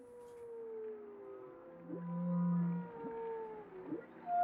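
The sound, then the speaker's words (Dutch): Whales calling to one another underwater in the North Sea, several long moaning tones that glide and overlap, with a lower steady groan swelling in the middle. The calls are moderately loud against a quiet background, and there is no talking. “Ja, want je hoort hier een paar walvissen die gezellig met elkaar aan het kletsen zijn.”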